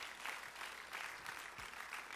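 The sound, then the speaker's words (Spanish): Faint applause rises from an audience during an evening church service. The clapping is soft and steady, with gentle surges of density across the short stretch and no voices above it. “Denle aplauso al Señor en esta noche.”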